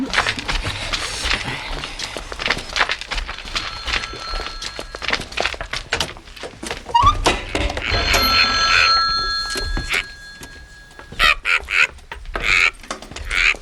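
A telephone rings inside a trailer, its bell trilling in repeated loud bursts across several cycles, alongside clattering movement and hurried footsteps, with no talk.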